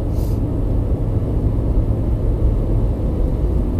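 Steady, dense low road rumble from a car driving early in the morning past fields of cows, continuous and even throughout with no distinct passing events.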